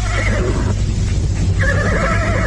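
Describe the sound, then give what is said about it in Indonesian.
A horse neighing loudly, a long shaky whinny that holds steady and fills the whole clip with little pause. “Namun belum terlalu jauh anak muda itu pergi, tiba-tiba terdengar ringkik kudanya.”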